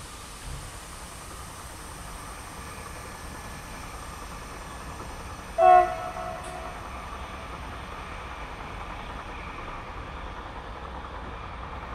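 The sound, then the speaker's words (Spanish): An overnight train running on rails gives a faint, steady rumble and hiss throughout, with a brief higher tonal squeal partway through. “El tren tiene por delante todo un país que cruzar, entre la más densa oscuridad que será la protagonista por la ventana en breves momentos.”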